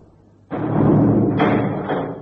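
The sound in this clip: A heavy temple door set in a dragon's mouth slams shut with a sudden loud impact, followed by a sustained deep rumble, and a brighter grinding layer joins partway through.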